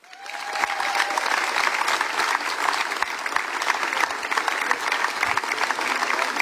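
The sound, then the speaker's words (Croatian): Festival audience applause greeting a performer at a song festival: clapping swells quickly from the start into a full, sustained, dense ovation that stays strong and steady to the end. “i sad kako smo vježbili aplauzi, tako ćemo i nastaviti, Siniša Pifar!”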